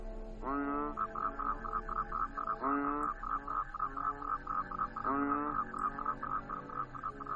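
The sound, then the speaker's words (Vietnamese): Frogs and toads croak outside: a continuous fast, pulsing trill of croaks, with deeper rising croaks recurring every few seconds, all rather faint. “Ở bên ngoài chỉ có tiếng cóc nhái vọng vào.”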